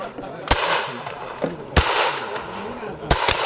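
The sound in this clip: Sharp gunshots at a shooting range, several loud, abrupt bangs spaced irregularly across a few seconds, with casual chatter from people in between.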